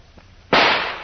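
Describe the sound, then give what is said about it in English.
A single loud gunshot fired at an old metal door lock, a sudden sharp crack whose noisy tail fades away over about half a second. “I'm going to try and shoot the lock off the door. Get back now. The bullet may bounce off the metal.”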